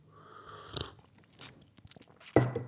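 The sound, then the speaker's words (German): A sip of a tea drink taken at a microphone: a few soft, wet mouth and slurping sounds in quiet, ending with a louder gulping burst. “Äh, ein Schluck von meinem Teegetränk sei mir an dieser Stelle kurz gestattet.”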